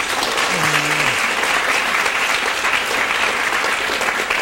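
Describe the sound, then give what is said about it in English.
An event audience applauds in welcome of a visiting team from Moscow, producing dense, steady, evenly sustained clapping. A voice is briefly audible early on. “Can you give them a hand, please?”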